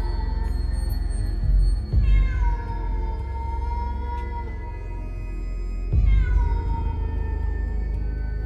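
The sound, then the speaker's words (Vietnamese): A cat meows mournfully in two long, drawn-out wails, each falling slowly in pitch, over a low, steady rumble. “Đầu đầy tiếng con mèo vẫn cứ nhảy nhót quanh nhà, kêu lên thê thiết.”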